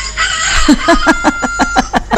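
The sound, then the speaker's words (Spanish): A rooster calls in a rapid, evenly spaced series of short, sharp clucking bursts over a steady low hum, growing slightly louder toward the end. “Ese gallo de verdad. Lo recuperé, no se me voló. Ya tengo gallo nuevo.”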